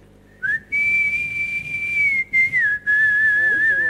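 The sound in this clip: A person whistles well, with a clean, pure tone and no buzzing vibration underneath. The note is held long and steady across a few phrases split by short gaps, and the pitch eases slightly lower toward the end.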